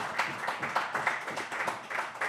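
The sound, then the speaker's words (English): Audience applause for a guest at the close of an interview, a faint, steady patter of many hands clapping with slight swells throughout. “Round of applause for Terry White, everybody.”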